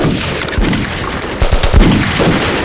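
Machine-gun fire in a battle during a retreat. Many rapid, loud shots come in bursts over dense, continuous noise, heaviest in the second half, with no speech.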